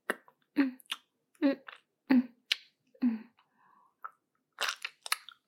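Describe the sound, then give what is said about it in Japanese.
Food is chewed and mashed with the tongue inside the mouth, giving short, wet crunching and clicking bursts at a slow, uneven rhythm, with a quieter smacking cluster near the end. “舌で潰して、咀嚼して、”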